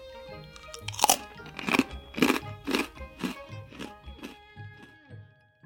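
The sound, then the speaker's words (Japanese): Crunching of snacks being chewed, many crisp, rhythmic bites that are loudest early on and grow softer and more spaced toward the end, with no talk. “向こうでお菓子を食べています。”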